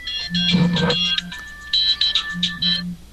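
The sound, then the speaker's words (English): A telephone ringtone announces an incoming call with a bright electronic melody in two short phrases, carrying a low buzzing undertone and pausing briefly between them. “Well, my grandpa's getting a phone call.”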